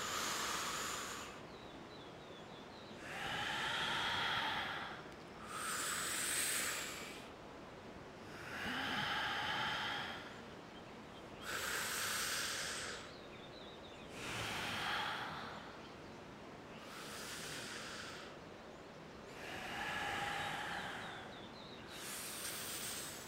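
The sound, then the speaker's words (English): Focused pranayama yoga breathing, with deep, forceful breaths through the nose in a regular rhythm: many airy, hissing bursts separated by short pauses, fairly faint overall. “it's hard for the mind to escape when we're doing these pranayamas because they're very focused, very different breath than you're used to taking in your normal day. Just 30 more seconds deep in this pranayama.”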